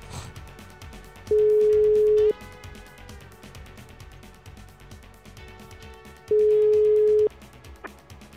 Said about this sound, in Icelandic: svo ætla ég að hringja til Berlínar Já Það var hringt í Berlínar